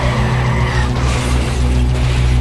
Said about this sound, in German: Pass auf, der Honda bremst.